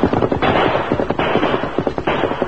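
Gunfire from a gang in a western radio drama set in a canyon: many loud, sharp shots crackle in rapid, irregular bursts across the whole clip, with no voices.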